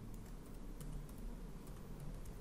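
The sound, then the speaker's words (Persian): Typing an email address on a computer keyboard: a faint, steady run of many light key taps at an even pace, with no talking. “در قسمت اول ایمیلی که با استفاده از اون در این کارگزاری ثبت نام کردیم رو یادداشت میکنیم”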